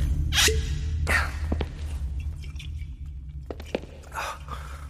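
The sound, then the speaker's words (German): A few sips and swallows of whisky, wet gulping bursts separated by breathy catches and short pauses, over a low steady hum. “Nimm einen Schluck Whisky. Das beruhigt die Nerven. Gib her.”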